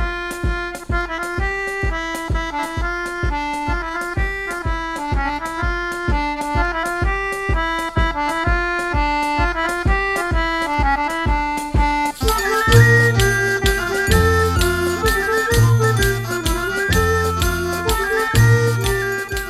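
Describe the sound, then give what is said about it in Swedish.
Music for a children's fairy tale based on an absurdist 1969 children's book: a tinkling, bell-like melody over a steady bouncing pulse, turning fuller and heavier with a deeper beat partway through, purely instrumental. “Musik från en saga som är illustrerad av Barbro Lindgren. En absurdistisk barnbok från 1969.”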